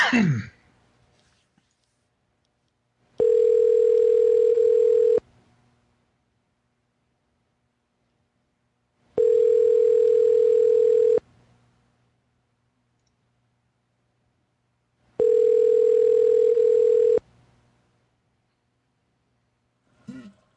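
A telephone tone after a call is hung up, heard as three long, steady electronic tones of about two seconds each, separated by equal stretches of silence.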